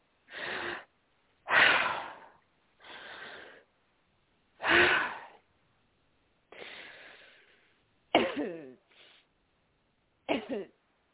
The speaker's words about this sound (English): Can you take a deep breath?